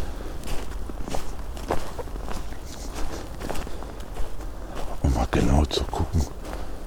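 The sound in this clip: Footsteps walk through a dark forest before daylight, irregular crunching steps on the ground with a voice talking between them, growing heavier and louder near the end.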